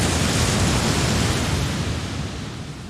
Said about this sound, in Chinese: 月圆之夜，潮水比平时涨得更高，给沙滩带来更大的转机。